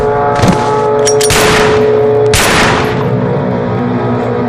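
Gunfire at a construction site: a few sharp, loud bursts break out over a steady, humming drone that runs throughout.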